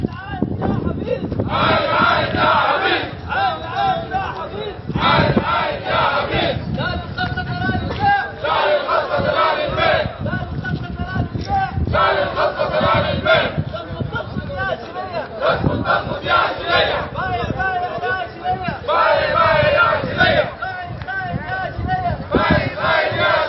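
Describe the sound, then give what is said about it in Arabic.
Port workers at the southern port chant slogans against privatization at a protest. The crowd's loud, rhythmic shouting comes in repeated bursts of massed voices over a constant crowd roar. “وتضامنا مع العاملين في الميناء الجنوبي، وردد العاملون هتافات لا للخصخصة لا للبيع، وحملوا لافتات تحمل شعارات مناهضة للخصخصة، ورددوا هتافات خلال الوقفة بقولهم:”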